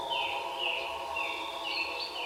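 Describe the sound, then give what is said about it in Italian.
A small bird chirps in a tree, giving a series of faint, high, quick chirps repeated at a fairly even pace over a steady, quiet tonal background. “Videro un uccellino che cantava su un albero. Ascoltarono insieme il cinguettio dell'uccellino.”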